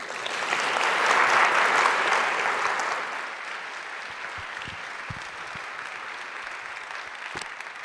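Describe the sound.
Audience applause welcomes a speaker to St. Andrew. Loud, dense clapping swells for the first few seconds, then thins to lighter, scattered claps that continue to the end.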